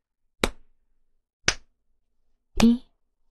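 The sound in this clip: Three sharp hand claps ring out at a slow, even pace about a second apart, each loud and isolated against silence. The third clap rings slightly longer than the first two.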